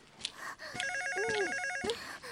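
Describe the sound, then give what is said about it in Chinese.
A telephone rings indoors with a short burst of bright, warbling electronic ringing tones, steady and fairly loud, bracketed by faint thumps and rustles before and after. “毕竟不知道是谁的电话嘛。 不管是找谁，可是小丽你离电话最近啊。”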